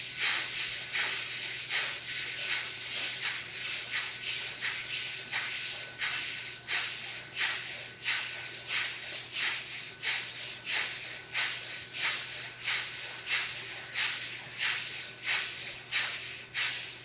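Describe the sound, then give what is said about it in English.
Bhastrika bellows breathing: many rapid, forceful breaths pushed in and out in a steady, even rhythm, each one a sharp airy hiss with no talking over it. “And again, we'll do the Bhastrika breath, up to 27.”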